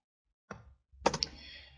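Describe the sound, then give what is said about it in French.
Computer mouse clicks during a software demonstration: two short, sharp clicks about half a second apart, with a low steady noise continuing after the second. “Si je clique sur l'autre, je fais OK.”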